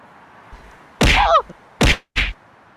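Three heavy thwacking hits of a punch-to-the-face sound effect, each short, sharp and loud with a brief gap between them. The first blow is the longest and carries a swishing, whining tail. No talk is heard over them.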